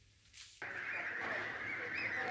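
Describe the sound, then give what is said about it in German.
Geese honking in a farm goose shed: after a brief quiet moment, a dense chorus of overlapping honks and cackles starts abruptly and carries on steadily. “Halligalli im Gänsestall.”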